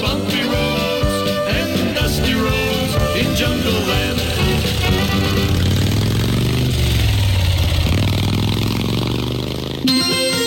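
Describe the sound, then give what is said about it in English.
A Harley motorcycle engine riding over bumpy, dusty safari roads in Africa: a loud, continuous mid-pitched rumble with clatter. Its pitch sweeps down and back up before the sound cuts off abruptly near the end. “We're driving a Harley through Africa on safari. We're riding over bumpy roads and dusty roads in jungle land.”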